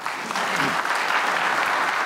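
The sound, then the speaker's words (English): An audience applauds to welcome a guest speaker at a ministry gathering, a dense, steady wash of clapping that holds at an even level throughout. “And I'm so excited to welcome him. And I want you to welcome Tim Moore,”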